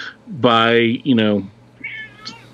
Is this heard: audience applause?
no